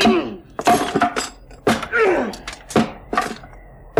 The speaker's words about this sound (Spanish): 4 veces cayó el hacha, pero la puerta era fuerte y el herraje de excelente calidad. Solo al 5º hachazo, la cerradura se partió y los restos de la puerta cayeron hacia adentro sobre la alfombra.